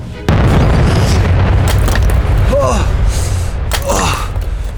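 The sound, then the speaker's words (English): A robot explodes in a video game with a sudden loud boom that settles into sustained heavy rumbling, with brief vocal sounds over the noise. “I kick the robot somewhere, it's gonna explode!”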